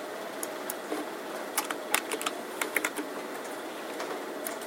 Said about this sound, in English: So if I type in a name up there